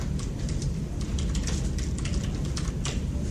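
Rapid clicking of typing on a computer keyboard, with many quick keystrokes in an uneven, busy rhythm and no voices.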